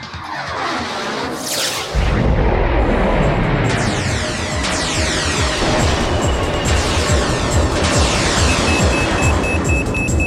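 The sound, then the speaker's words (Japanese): Sci-fi sound effect of a mega particle cannon firing: a sweeping whoosh, then a loud, sustained roaring blast laced with shimmering, wavering tones that lasts to the end. “艦長、発射準備完了しました。 うむ、メガ粒子田代砲発射。”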